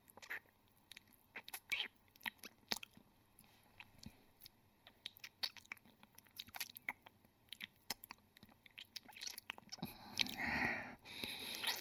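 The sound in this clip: Close chewing and biting while eating rabbit meat: many wet, crunchy bites and squishes in an uneven rhythm, mostly faint, growing denser and louder toward the end.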